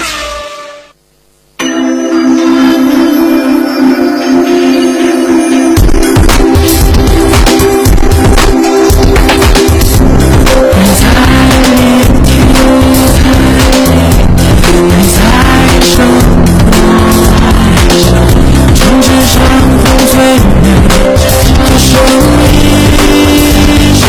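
Go-kart racing with engines and tire squeal: after a brief quiet moment, loud, continuous engine drone kicks in, with squealing tires and dense, unbroken noise running to the end.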